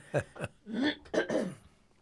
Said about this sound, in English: Hang on, I'm clearing my throat again.